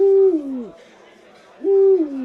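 Two owl hoots separated by a short silence. Each is a clear, sustained tone that bends downward in pitch at its end.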